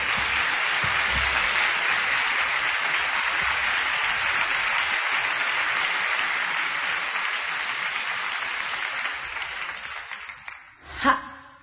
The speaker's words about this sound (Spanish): Un aplauso.